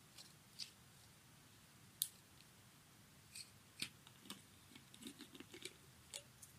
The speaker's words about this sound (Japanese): いただいた媚薬を開封していきます